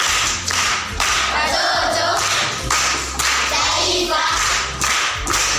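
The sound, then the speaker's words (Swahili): Hands clapping for a man at a children's riddle session, a dense, steady burst of many claps that runs through the whole stretch with a few brief dips. “Makofi kwa mjomba.”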